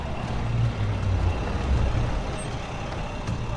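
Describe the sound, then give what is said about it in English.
A large box-shaped van drives into a desert hideout, its engine giving a steady, loud, low rumble with a hissing, brake-like edge throughout, with no talk. “Into Grudenko's desert hideout drives a large box-shaped van.”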